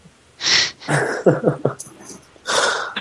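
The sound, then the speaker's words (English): Dogs playing and snorting, heard as a few loud breathy snorts and wheezing huffs in bursts, with short quiet gaps between them. “It's one of your dog games. Well, they're playing. Leave them alone.”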